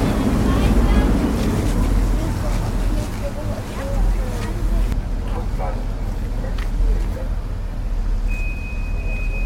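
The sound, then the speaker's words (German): A ferry travels along the Elbe past Hamburg's Landungsbrücken piers. Its steady, loud engine rumble and water noise run throughout, with wind buffeting the microphone. “Wir sind gerade auf die Fähre gegangen. Jetzt fahren wir auf den Elbe lang und an den Landungsbrücken vorbei.”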